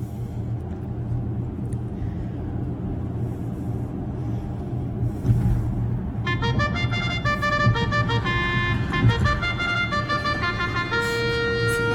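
A car horn sounding as the car pulls up at a research lab. Low vehicle rumble comes first, then about halfway through a run of short, bright, harmonic toots repeats in quick bursts to the end.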